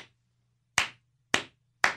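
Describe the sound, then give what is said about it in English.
A slow clap for the snowplow drivers: sharp single handclaps spaced well apart in a deliberate, unhurried rhythm, each ringing briefly before the next, over a faint low hum. “I'm going to do this. Yeah? Start with the slow clap. Those guys in the plows.”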